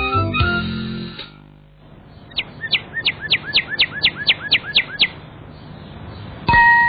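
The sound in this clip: A cardinal chirps in a children's cartoon: a quick, steady series of bright, high, downward-sweeping chirps that lasts a few seconds, with brief unrelated sounds before and after.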